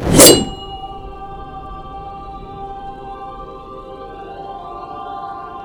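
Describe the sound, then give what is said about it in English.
Summoning the sword Umbra Mortis, a clear steel blade with a velvet red handle: a sharp bright burst opens, then a steady metallic ringing shimmer with layered tones sustains alone to the end. “This time, when you summon your blade, Umbra Mortis, it comes out as a real sword. With a velvet red handle. The blade itself is clear steel,”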